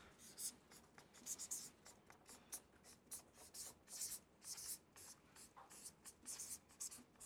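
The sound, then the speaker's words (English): A pen scratches down a note on paper, many short, faint strokes and squiggles in an uneven rhythm, soft and close. “Okay, let's write that down then.”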